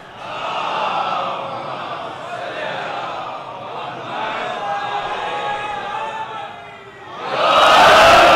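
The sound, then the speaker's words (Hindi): Crowd at a religious gathering chanting a slogan together. Subdued, sustained massed voices swell into a loud shout near the end. “हाँ अल्लाह के बंदो, नारा लगाना है तो कोई नारे की तरीके से तो लगाओ, पता तो चले।”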